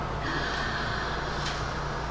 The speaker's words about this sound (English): And slowly, gently exhale. And inhale, you're counting to three.